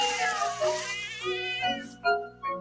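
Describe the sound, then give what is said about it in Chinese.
Cat meows from an animated cartoon featuring a black cat and a grey cat. High, wavering cries blend with busy background sound, then two short, clear meows stand out alone near the end. “系两只猫带我去揾到嘅，黑猫同灰猫”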